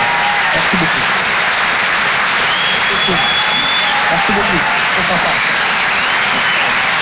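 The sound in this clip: Applause from a comedy club audience at the end of a comedy set: dense, continuous clapping across the whole clip, with a voice speaking over it.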